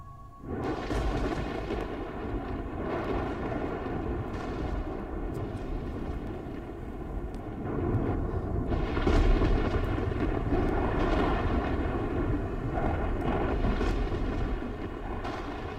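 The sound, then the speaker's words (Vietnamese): Stormy thunder rumbles with wind whistling through bamboo tops and rustling, swaying trees. A continuous deep roar grows louder about halfway through, with no sharp cracks standing out. “gió rít qua những ngọn tre, cây cối xào xạc lắc lơ, sấm chớp cũng bắt đầu nổ đì đùng”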